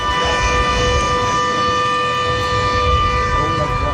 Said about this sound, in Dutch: Zo klonk het haaienalarm dat een paar weken terug hier te horen was